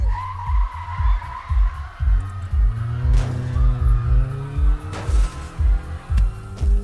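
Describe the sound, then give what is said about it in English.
A car engine revs with rising pitch and its tires skid, over a steady, rhythmic low thumping that runs throughout. “Now I'm ready to drive.”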